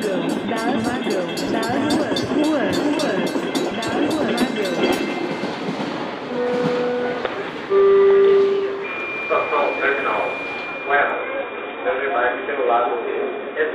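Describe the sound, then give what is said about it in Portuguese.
A train runs on countryside rails with a loud, dense, steady rumble throughout. Brief tonal notes sound near the middle, and people talk over the train noise. “sejam bem-vindos ao Vagão das Ruas, uma viagem sonora pelos trilhos do interior.”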